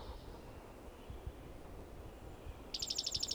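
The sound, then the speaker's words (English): Soft birdsong: a quick run of many high, thin chirps arrives near the end over a faint, quiet background. “bird singing softly”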